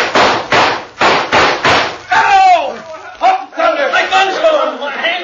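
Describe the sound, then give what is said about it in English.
Several sharp gunshots fired in quick succession at a group of outlaws' guns during a western shootout, loud percussive cracks followed by excited voices shouting. “Now shoot at their guns, along with me.”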